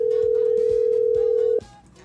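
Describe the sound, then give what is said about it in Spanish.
A telephone dial tone hums as one steady, loud pitch, then cuts off abruptly partway through as a number is dialed, leaving faint clicks and a low background. “Vamos a marcar por aquí. Vamos a ver un poquito los datos. Ahí estamos marcando.”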